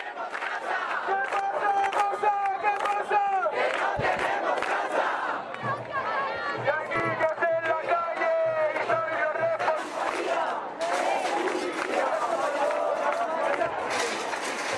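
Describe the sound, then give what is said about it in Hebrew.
Protesters shout at a housing protest in Spain as they clash with police trying to clear them from the squares. Massed voices yell and chant loudly and without pause for about fifteen seconds, with individual cries rising above the crowd. “כן, אז אנחנו שומעים אותם צועקים, זה תוך כדי שהם משליחים גדרות ברזל על, על, על השוטרים שמנסים לעצור אותם ולפנות אותם מהכיכרות.”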